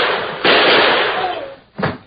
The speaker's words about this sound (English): Jumping snake, you shot the lawman.